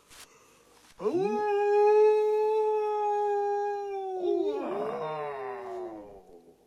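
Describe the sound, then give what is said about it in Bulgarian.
A werewolf's howl rising from a valley: one long, sustained howl that holds a steady, rich tone for a few seconds, then wavers and roughens into a broken, moaning ending. “Чуваш ли как вие върколака в долината?”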